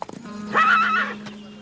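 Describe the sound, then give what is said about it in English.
A horse neighs once in a high, wavering whinny while being broken in on a ranch in northern Mexico. A few light hoof clicks come first, and a steady low hum runs underneath. “Ramon Salazar's brother Hector watches a trainer break in a horse”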